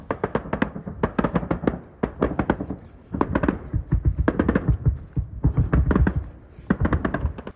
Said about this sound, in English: Now and then, they shoot each other.